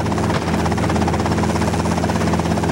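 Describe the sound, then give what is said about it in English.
Helicopter touching down, a loud, continuous rotor thrum with a buzzing engine whine, steady and unbroken throughout with no voices. “As it touches down, Butler stands aiming the machine gun. A man climbs out of the helicopter.”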